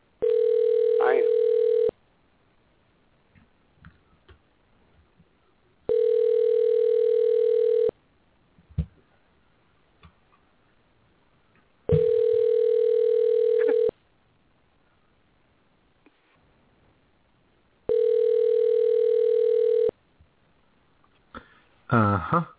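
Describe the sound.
A redialled telephone call ringing out: four steady ringback tones of about two seconds each repeat at regular intervals, with faint small noises in the silent gaps and brief vocal sounds near the end.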